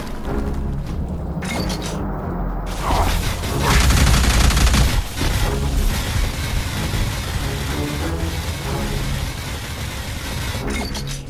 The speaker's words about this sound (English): Seriously, stop reloading in the middle of a freaking weapon fire. It's like, I actually need the gun.